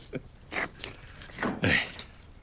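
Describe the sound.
Someone eating zhajiang noodles, with a few soft, moist chewing and biting sounds at irregular moments.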